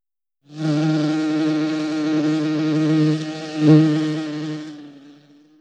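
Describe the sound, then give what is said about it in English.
Buzzing of a flying insect, a steady, loud, droning hum that holds for about four seconds with a slight wavering before fading out. “Buzz.”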